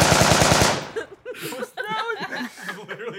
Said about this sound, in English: It was machine gun sound effect. It's even the same voice as the story. Probably tap dance with machine guns.